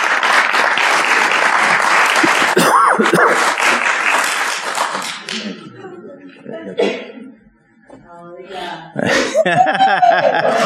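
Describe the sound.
An audience claps to welcome a speaker to the pulpit, several seconds of dense applause that fades away, followed by quieter voices and some chuckling.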